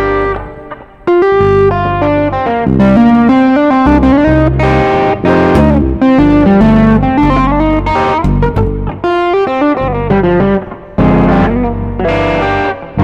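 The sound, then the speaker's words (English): Melodic playing through a distortion effect, with one stereo side distorted and the other clean. Loud, continuous sustained notes and chords ring out, with no talking. “So now I have one side that's more distorted, and then this side there is no distortion.”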